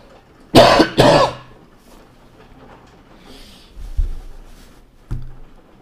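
Coughing from someone recovering from COVID-19: two loud, harsh coughs in quick succession, then a few faint, low thumps in the quiet that follows.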